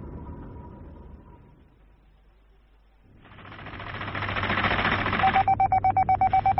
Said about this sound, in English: Sounds like it's coming from below. That is Kraken Control. Fisher's testing his beloved missile conveyors.